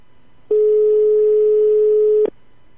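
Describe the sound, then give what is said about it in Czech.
A telephone ring-back tone sounds during an outgoing call while the caller waits for an answer. It is a single steady, mid-pitched tone lasting nearly two seconds, clear and alone against quiet. “Já to zkusím ještě jednou. Tak, uvidíme, si to zvednou.”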